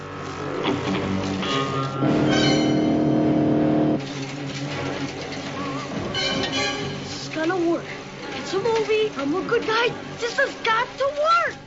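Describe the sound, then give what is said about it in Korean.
A car charging head-on in an action film scene: an engine roars and revs, loudest in a sustained stretch near the middle, within a busy soundtrack mix with voices talking over it. “그때 정면에서 베네딕트의 자동차가 돌진해 옵니다.”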